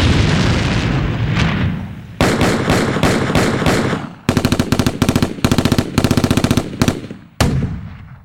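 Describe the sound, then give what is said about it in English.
Military sound effects: a deep rumbling boom leads into several rapid bursts of machine-gun fire, loud and sharply separated by short gaps, with a final sharp blast near the end. “And of course, my personal favorite, military sound effects.”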